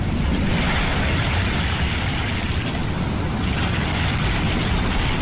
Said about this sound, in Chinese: 妈妈说把海螺放在耳边就能听到大海的声音，你听。